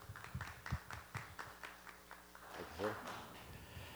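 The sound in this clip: Applause from an audience welcoming a guest speaker, Dr. Hutton, to a Healing School session in Dayton, heard as a quiet, steady run of quick claps, with a voice coming in near the end.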